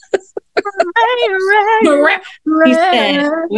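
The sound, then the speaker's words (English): Cat meowing in a melodic, riff-like way: a few short calls, then two long, drawn-out meows with wavering pitch, loud and clear. “That's a cat. That's, I'm a dog person too. But this cat was like actually doing riffs.”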